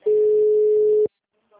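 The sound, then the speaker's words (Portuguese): A telephone busy signal gives one steady, mid-pitched tone lasting about a second, which then cuts off into near silence with a faint sound at the very end. “O telefone encontra-se ocupado. Por favor, tente mais tarde.”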